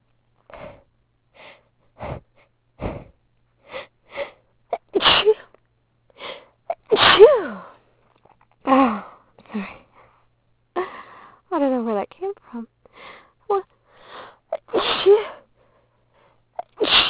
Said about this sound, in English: I don't know why I'm sneezing so much.